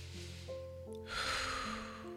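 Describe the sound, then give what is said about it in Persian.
A deep breath taken during a guided breathing exercise rises as a soft, airy rush about halfway through, over a quiet, sustained musical background. “سه تا دم و بازدم عمیق انجام میدیم آروم تو ذهنمون میشماریم دم میگیریم”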